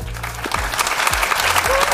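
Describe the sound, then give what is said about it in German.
Spectators at a Stuttgart football match applaud in a dense, steady wash of clapping that fills the whole stretch, with some low sounds underneath. “Da klatschen sie, die Zuschauer bei uns mit dem roten Brustring.”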